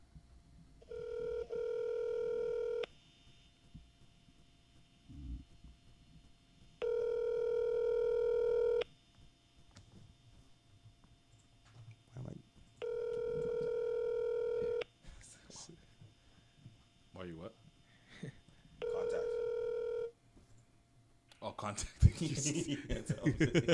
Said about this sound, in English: So I want to call him and just hear from the youth's mouth himself just how it happened.